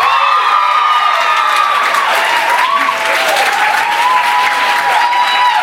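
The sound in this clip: Loud, dense audience applause welcoming a performer, with cheering and scattered whoops mixed in, holding steady and unbroken throughout.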